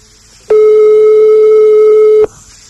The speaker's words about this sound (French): On appelle chez un particulier et il va donc devoir décrocher.